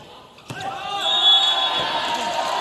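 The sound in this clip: A volleyball float serve slams onto the court for a point during a match, one sharp smack followed by a loud, swelling roar of crowd noise.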